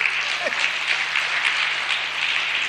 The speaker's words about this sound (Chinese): 他这可有点吹嘘，这个 观众都鼓掌了 啊！